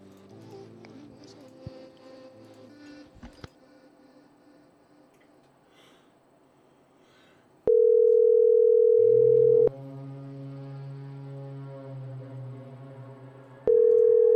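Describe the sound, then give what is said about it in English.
A telephone dial tone sounds while a call is placed. After several seconds of quiet background with a few small clicks, a loud steady tone holds for about two seconds, gives way to a quieter, lower steady tone, then the loud tone returns at the end. “I'm gonna call him and tell him he's got no audio.”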